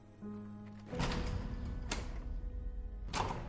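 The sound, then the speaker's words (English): Someone tries the handle of tall, locked glass front doors: a soft clunk, then a few brief rattles and clicks over a quiet low hum. “She crosses the portico to the tall glass front doors and tries the handle.”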